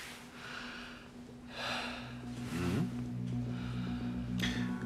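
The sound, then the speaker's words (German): Deep breathing in and out during a medical examination of the lungs: a few soft, airy breath bursts separated by quiet gaps, with a faint low hum running underneath. “Einmal tief ein- und ausatmen, ja?”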